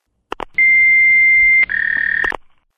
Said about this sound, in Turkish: Sinyal sesinden sonra mesaj bırakabilirsiniz.